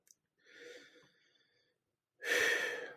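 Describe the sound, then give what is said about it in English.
A deep breath, drawn in softly and let out as a louder, rushing exhale, heard on its own with no talk. “Let me take a deep breath before I go absolutely ape shit here.”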